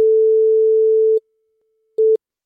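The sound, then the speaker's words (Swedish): A telephone tone sounds while a phone call is being placed: one steady, even-pitched beep holds for a little over a second, then stops. After a short silence a second, much shorter burst of the same tone follows. No voices are heard. “jag ska se om jag kan ringa och få tag på henne här.”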